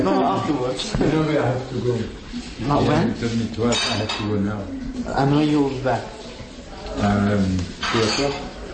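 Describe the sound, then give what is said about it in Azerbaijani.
Cutlery and dishes clink during a lunch meal, with light metallic taps and knocks scattered under steady speech. “nahar vaxtını hansısa görüşə həsr edəcəyindən yemək yeyirdi.”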